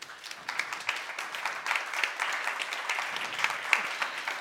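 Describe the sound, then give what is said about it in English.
An audience applauds a presenter at an award presentation, producing a crisp, continuous patter of many individual claps at moderate loudness that holds steady throughout. “Please give a huge applause to Ulrike”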